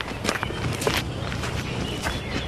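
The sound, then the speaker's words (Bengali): Footsteps of a police officer and a constable walking along a village path: a few soft, scuffing steps at an even pace over steady low background noise. “Gobindapur গ্রাম, গায়ের পথ ধরে হাঁটছে SI ধুরন্ধর Das ও সেপাই জগবন্ধু সেনাপতি।”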